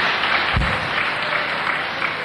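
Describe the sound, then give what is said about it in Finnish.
An audience at a religious meeting applauding: steady, dense clapping that holds at an even level throughout. “Annetaan aplodit heille, jotka tänään ovat tulleet.”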